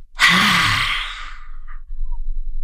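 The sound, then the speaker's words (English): A long breathy sighing exhale pushed out through the mouth with the tongue out, as in a cleansing lion's breath yoga exercise, loud and airy at the start and fading gradually over more than a second. “we're going to do a cleansing lion's breath, which is going to be a deep inhale through your nose. And then it'll be followed out by sighing it out through your mouth with your tongue out. And it'll sound a little like this.”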